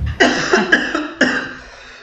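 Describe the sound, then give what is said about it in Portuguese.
Coughing after choking: five harsh coughs in quick, uneven succession, the last one trailing off into quiet. “Engasguei, desculpa, gente.”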